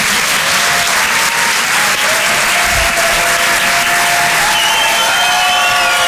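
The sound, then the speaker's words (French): A comedy club audience greets a comedian with loud, dense applause that holds steady throughout, with cheering mixed into the clapping. “Faites du bruit, s'il vous plaît, pour Arnaud Demanche.”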